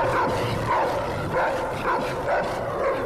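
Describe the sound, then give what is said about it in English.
A homeless man's dog barking in a tunnel: many rapid, evenly repeated barks over a steady noisy background. “A homeless man is camped in the tunnel. His dog barks at Alistair.”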